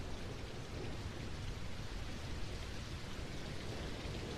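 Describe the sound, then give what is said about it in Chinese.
Steady rain falling, a dense, even hiss of drops that holds at a constant level throughout with no voices. “下雨了，雨滴打在身上，舒服吗？”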